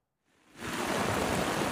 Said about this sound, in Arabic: الأمطار ما عم تهدى باللاذقية، ونحن هون بسوق السمك عم نعاني من قصة الصرف المطري